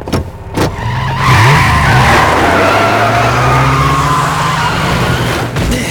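A car skids under rough driving, tires screeching over a loud, sustained engine roar that climbs briefly in pitch early on, then holds a steady, heavy drone until near the end.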